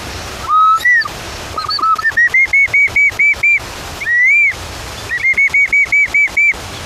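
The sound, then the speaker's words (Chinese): A bamboo instrument imitates a bird call with high, pure whistled notes. Sliding tones rise in pitch into a quick run of short repeated chirps, then one long swooping note, then another rapid chirping run. “竹子是一个非常好的拿来做自然乐器的一个材料。模拟鸟叫的声音，还有另外一种鸟，”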